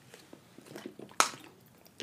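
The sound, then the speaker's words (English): Someone takes a sip of water, heard as faint wet mouth clicks and a slurp, with one sharper squishy sound near the middle and another at the end, with no speech. “sorry to take a sip of water there.”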